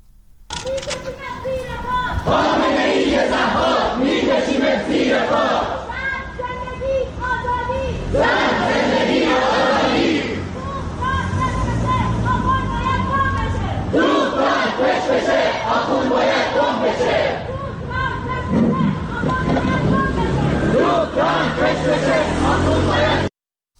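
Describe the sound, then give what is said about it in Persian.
Iranian protesters chant at a rally in Seoul, shouting loud, rhythmic slogans in repeated bursts over steady crowd noise. “به صدای معترضان در سئول گوش بسپارید.”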